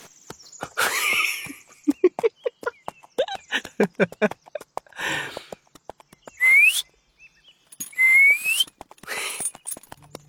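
A person whistles to call a horse: two short upward-gliding whistles, each about half a second long, follow a stretch of irregular clicks and brief croak-like bursts.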